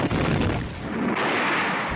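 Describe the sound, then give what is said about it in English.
Naval bombardment of an island at Saipan, with artillery shells firing: a loud, sustained rumble of heavy booms that blend into one dense roar rather than separate shots. “U.S. forces began the naval bombardment, pounding the island with tens of thousands of shells.”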